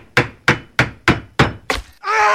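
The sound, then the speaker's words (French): Six hammer blows land at a steady rhythm during a house roof repair, each a sharp wooden thunk that decays quickly, followed by a sustained bright tone. “Examinons ce que l'on peut entendre lors d'une réparation d'un toit de maison.”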